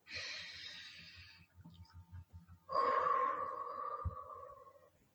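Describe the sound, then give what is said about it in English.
A person takes a deep breath in through the nose with an airy hiss, pauses, then breathes out longer through the mouth with a soft, faintly whistling tone. Both breaths are slow and fairly quiet, with no speech. “Take 3 deep breaths.”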